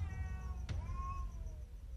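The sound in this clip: A crazed cat meowing indoors: a single drawn-out meow that falls slightly in pitch, preceded by a brief sharp click, over a low rumbling background.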